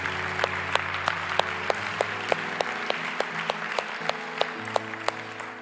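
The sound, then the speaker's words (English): A church audience applauds during a service, steady clapping that holds at an even level throughout, with sustained musical tones underneath. “Can we put our hands together this morning and welcome people into God's family?”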